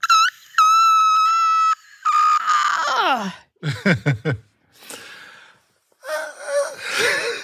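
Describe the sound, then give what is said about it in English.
A thin, piercing whistle-register vocal note is held steady for over a second, then gives way to strained squeaks, wheezy gasps and breathy vocal bursts as the voice keeps trying for the same high register. “you just kind of go like you're going to stretch, which brings your vocal cords together, and then you just kind of let the note whistle out.”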